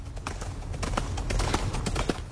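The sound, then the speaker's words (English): Horse hooves clip-clopping through a fast-food drive-thru: many quick, sharp hoof strikes in a loose, steady rhythm over a constant low background, without talk. “there were horses in the drive-thru at Hungry Jack's in Shell Harbour”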